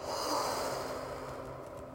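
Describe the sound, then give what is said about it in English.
A deep, slow breath during a guided meditation, heard as a long, soft, airy rush of air. It stays faint and steady throughout, with no talking. “Now let's do it again. Inhale, hold, and exhale.”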